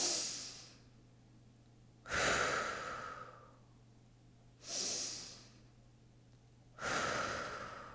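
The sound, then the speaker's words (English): Four forceful, exaggerated breaths in a breathing exercise, each a loud airy rush that fades away with quiet pauses between, over a faint low hum. “And just release that little exaggerated breath.”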